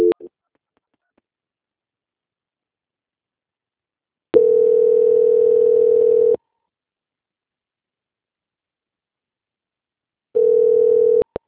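A telephone line tone sounds while a call is being transferred: a steady, mid-pitched electronic tone in three bursts. A brief blip comes first, then a two-second tone after a pause, then a shorter one after a longer silence.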